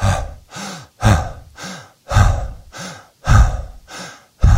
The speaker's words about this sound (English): if you're feeling you're pushing the air out too hard and it irritates your breathing, push a little softer. Stop and swallow and begin again and breathe a little softer.